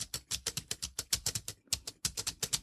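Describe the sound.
Rapid tapping on the keys of a BrailleNote Touch Plus braille keyboard while writing in a text field: many crisp, quick clicks in an uneven rhythm, with one brief pause before the tapping resumes.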